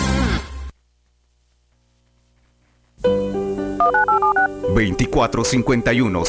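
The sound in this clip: Telephone keypad dialing tones in a radio station jingle, a quick run of about four short electronic beeps set in music, after a brief burst of sound and a few seconds of silence.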